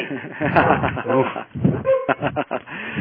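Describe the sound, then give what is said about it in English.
Dog barking from a dog wearing a bark collar: a few short barks mixed into people talking, with a whimper-like edge, at moderate loudness. “we put a bark collar on my dog and that still doesn't stop her.”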